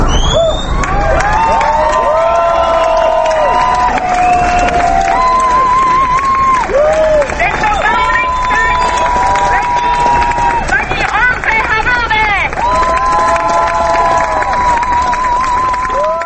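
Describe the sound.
Marchers in a Prague street commemorating the 17 November 1989 demonstration on its twentieth anniversary: loud, continuous crowd noise with cheering and long sustained tones rising and falling above the throng.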